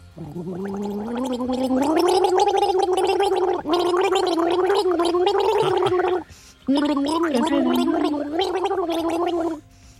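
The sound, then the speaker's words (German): Someone gargles a pop song melody: a loud, bubbling, throaty voice carrying a sung tune in long sustained phrases, with a brief pause before the gargled singing resumes and ends abruptly. “Hör gut zu und sag uns, welchen Song haben wir hier gegurgelt?”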